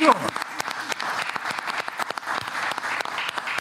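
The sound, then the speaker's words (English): Audience applause: dense, steady clapping from a crowd that holds at an even level throughout, with no clear break. “Oh, yeah, let's make some noise right here.”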